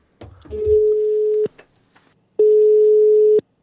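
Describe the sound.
Telephone ringback tone while a call is being placed: two loud, steady, even-pitched tones, each lasting about a second, separated by a pause of similar length.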